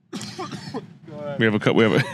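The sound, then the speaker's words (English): A short burst of coughing opens the moment, followed by a pause and then a person talking. “we have the smiley cough hiatus here.”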